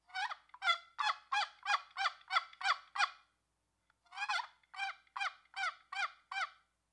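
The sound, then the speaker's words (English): A wooden box call imitates a wild turkey's locator call in two runs of evenly spaced, raspy, high yelps, separated by a short silence. The calls are clear and alone. “turkeys typically do the same thing. And that locator call, and I've got my box call here, sounds like this.”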